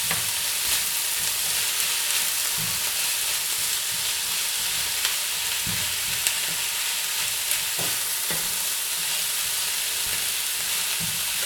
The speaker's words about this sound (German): Die Tomaten, ganz klar, da ist natürlich viel Wasser drin, das heißt, die geben jetzt der ganzen Sache schon ein bisschen Flüssigkeit, damit das ganze Rührei auch ein bisschen flockiger und cremiger oder leichter wird.